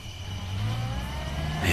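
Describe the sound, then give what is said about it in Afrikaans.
A car speeding past on a road: a fairly quiet, steady engine whir over broad rushing road noise that swells slightly toward the end. “kyk waar ry jy? Maar dis mos Garys gaans wat verby my gejaag het.”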